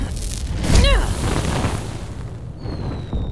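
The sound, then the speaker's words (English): A booming burst from a fireball thrown down a tunnel: a heavy, loud low thud followed by a rolling rumble that lingers and slowly settles across the rest of the moment. “can you throw a fireball down one tunnel?”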